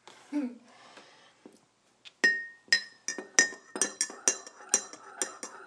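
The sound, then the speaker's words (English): A spoon clinking against a cup while stirring coffee, a rapid run of many bright, ringing glassy taps in a steady rhythm after some softer rustling and scraping at the start. “I always love the sound of people stirring their coffee.”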